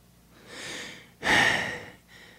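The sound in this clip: A sharp, long intake of breath with a softer breath just before it and a faint one after, breathy and alone with no talk.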